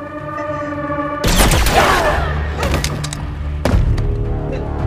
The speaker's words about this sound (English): It's tense, but Nemec is saved by a well-aimed blast from Cinta.